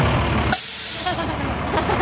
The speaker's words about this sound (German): Dann biegt das knallrote Feuerwehrauto um die Ecke.